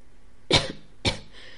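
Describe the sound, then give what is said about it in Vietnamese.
Two hard, dry coughs from a hoarse man shivering with cold. They are loud and short, about half a second apart, with no talk around them. “Khấu Lẩm rét run cả người, ho khan thật mạnh vài tiếng, thanh âm khàn khàn.”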